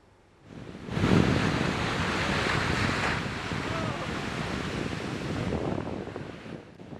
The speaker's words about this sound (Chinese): 受玛丽影响，美国加州纽波特海滩五号出现巨大涌浪